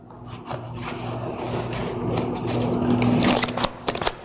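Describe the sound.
A deck of playing cards being shuffled: a continuous dry rasping rustle that swells louder and ends in a few quick, crisp riffling snaps.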